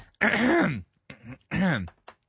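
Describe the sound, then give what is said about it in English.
A man clears his throat as if something is caught in it, a few rough, voiced guttural bursts, the first and third longest and loudest, separated by short silences. “Something, it's like a hairball or something is caught in my throat.”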